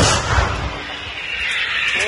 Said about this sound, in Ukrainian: Бійці продовжують бити по цілі, один за одним. Розвідники більше не коригують, то значить, все лягає у ціль. Готово! Постріл!